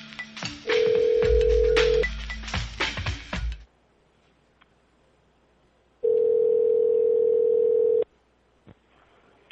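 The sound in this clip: A telephone call is placed: a steady dial tone sounds among clattering clicks and handling noise, then a quiet pause, then a second steady tone of about two seconds, with a faint click near the end.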